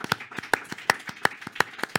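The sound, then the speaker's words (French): Rhythmic hand clapping from an audience applauding a guest, a steady run of many sharp claps with regular stronger beats and no voices. “Mon cher public, je voudrais qu'on fasse un triomphe d'applaudissements à Jean-Charles Huberti pour les clés de l'IMO.”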